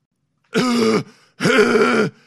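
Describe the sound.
A voice imitates a violent coughing hack in two drawn-out, rasping, voiced bursts, each about half a second long, with a short gap between them.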